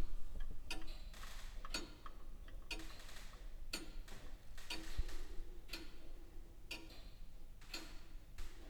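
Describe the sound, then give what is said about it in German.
Steady ticking from a grandfather clock built in 1775, opened up to show its anchor escapement. Crisp, even ticks fall at roughly one per second, alone and fairly quiet, with no voices. “Durch die Türe begeben wir uns ins 18. Jahrhundert, wo Tabea Rude eine Bodenstanduhr von 1775 öffnet.”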